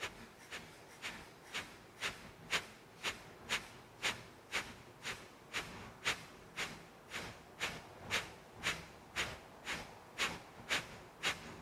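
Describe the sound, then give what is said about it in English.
Kapalabhati yoga breathing: many forceful, snorting nasal exhales in a steady, even rhythm of about two per second, each a short, bright puff of air over a soft background hush. “Release and just breathe. Kapalabhati is said to be a good practice to do this”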